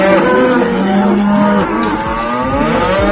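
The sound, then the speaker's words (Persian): Cows moo loudly in several drawn-out, overlapping calls, deep and throaty with rich harmonics, some bellows sliding downward in pitch toward the end. “این بار دیگه صدای گاوا رو هم در آوردید. بفرمایید لطفا اعتراض گاوا رو به سیاست‌های اقتصادی گوش کنید.”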